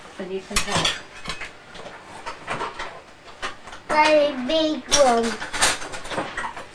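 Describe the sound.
A spoon clatters among dishes and bowls while flour is weighed for teddy bear biscuits: a few sharp clinks and scrapes, with a voice sounding in between.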